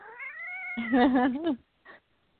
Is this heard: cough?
no

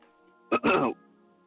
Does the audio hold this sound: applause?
no

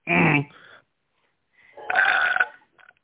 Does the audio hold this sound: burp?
yes

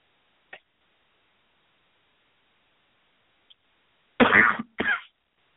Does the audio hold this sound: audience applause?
no

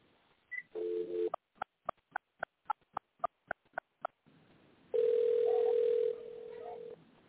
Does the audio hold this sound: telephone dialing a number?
yes

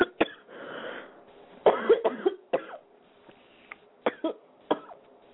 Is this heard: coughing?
yes

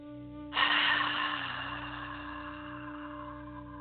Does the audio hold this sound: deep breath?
yes

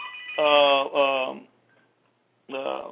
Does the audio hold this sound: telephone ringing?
yes

